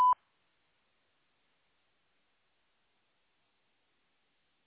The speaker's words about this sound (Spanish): Favor de grabar su mensaje después del tono.